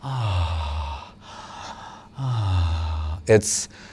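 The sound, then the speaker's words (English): A voice imitates slow, rhythmic breathing in and out: two drawn-out, voiced breaths, each sliding down in pitch and separated by a short pause, then a brief, sharp rising gasp near the end. “it's regulating his breathing, and his breathing in a very beautiful rhythmic fashion is going in and out.”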